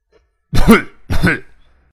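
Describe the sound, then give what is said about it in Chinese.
Two light, short coughs in quick succession from a man in a story, voiced by a narrator, each a brief throaty burst with a short gap between them. “轻咳了两声，让周富明知道他跟唐学谦、金国海已经走了出来”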